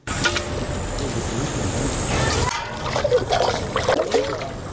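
Water drawn from a pond sloshes and trickles as it is carried at dawn in a village, a steady wet splashing that grows busier in the second half.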